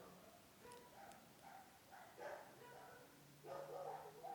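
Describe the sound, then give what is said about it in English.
Dogs with partial dingo ancestry bark and yip faintly in a series of short, irregular bursts. “can you hear those dogs? Whoa. So, most of those dogs have at least some dingo in them.”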